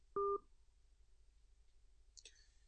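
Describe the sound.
A single short, loud two-toned telephone beep as a caller is connected to a phone-in line, followed by near silence and a faint high click.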